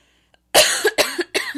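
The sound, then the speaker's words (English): Harsh coughing from someone who has just inhaled cheese-snack dust: a quick run of about three loud, rasping coughs follows a faint click, with no talking. “Oh, I inhaled Cheeto dust.”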